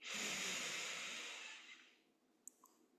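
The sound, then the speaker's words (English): A deep breath drawn in during a guided breathing exercise: a broad, airy hiss that holds steady for about two seconds and then fades away, followed by a couple of faint clicks. “Taking another deep breath in,”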